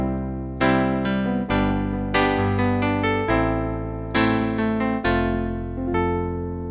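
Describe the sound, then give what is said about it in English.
Electric piano preset on an old analog keyboard, played as a series of sustained notes and chords with a bright, buzzy, synthetic tone, each note fading slightly before the next begins. “This was supposedly a piano. It would actually be labelled on a button, piano, electric piano.”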